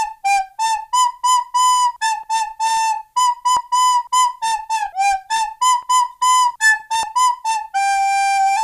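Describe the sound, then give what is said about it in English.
A recorder plays Mary Had a Little Lamb as many clear, breathy notes in a steady rhythm, each tone pure and whistle-like, ending on a longer held note. “I'm going to play Mary Had a Little Lamb on record. Ready for this? I literally relearned it for this moment.”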